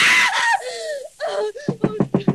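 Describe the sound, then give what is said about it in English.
A woman screams in her sleep during a nightmare: a high cry that falls in pitch, a second wavering cry, then a quick run of short, gasping sobs. “What on earth is wrong? Why were you screaming? Oh, Benson, I must have been dreaming. It was horrible.”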